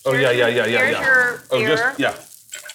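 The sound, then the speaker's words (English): Food sizzling as it fries in a pan, a hissing crackle heard under loud, overlapping conversation that nearly covers it. “Let it go a little longer. Actually, let it fry.”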